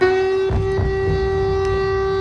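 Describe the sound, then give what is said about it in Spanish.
Wartime air raid siren sounding over the Ukrainian capital, a steady, sustained mid-pitched wail with rich overtones that holds unchanged, with a few low rumbling bursts underneath. “Sonaban las sirenas antiaéreas en la capital ucraniana.”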